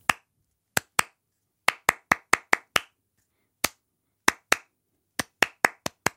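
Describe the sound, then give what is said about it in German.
Bare hands clap out a musical rhythm, with crisp, sharp claps falling in quick groups separated by short pauses and no other sound between them. “Und wenn ihr ihn noch im Kopf habt, dann könnt ihr ihn ja vielleicht nochmal nachklatschen. Wir wollen nämlich von euch wissen, zu welchem Musikstück dieser Rhythmus gehört.”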